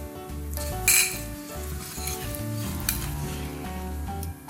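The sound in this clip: A sauce of brown sugar and soy sauce sizzles in a pan, a steady bubbling hiss broken by the scrape and clink of stirring.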